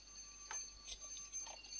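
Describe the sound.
A kitchen timer alarm goes off to signal that boiled eggs are done, giving a faint, steady electronic ringing with a few sharper bursts.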